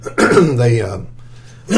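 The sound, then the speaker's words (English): A person clears their throat once in a loud, rough rasp that tails off into quiet. “did that mess up the recording? Clearing my throat?”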